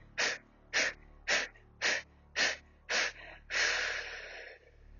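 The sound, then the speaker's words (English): Breath of fire, a forceful rhythmic breathing exercise: six sharp, evenly spaced nasal exhales in a quick steady pulse, then one longer, rushing breath. “And so we'll just do three counts of breath of fire. Inhale and go. Moving out that stuck energy, just push it out.”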